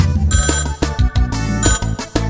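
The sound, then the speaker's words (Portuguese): A telephone rings while a call is placed: a melodic electronic ringtone with repeating rhythmic pulses, loud and steady, with no voices. “Vou ligar pra Amanda.”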